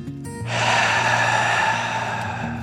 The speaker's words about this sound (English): The dragon took a deep breath in and out.